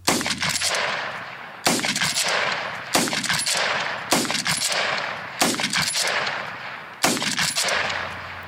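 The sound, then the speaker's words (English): Six rapid rifle shots from a bolt-action Lee Enfield fired at a rapid-fire pace, each a sharp loud crack with a decaying tail, spaced by short gaps for working the bolt. “Here's a short clip of the Lee Enfield being fired at a rapid-fire pace.”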